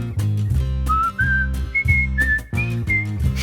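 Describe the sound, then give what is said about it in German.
A person whistles a tune in a German stage musical cast recording, clear and fairly loud over instrumental backing, with a few notes that step generally higher. “Darum pfeifen sie so lange, bis sie wieder fröhlich sind. So ungefähr?”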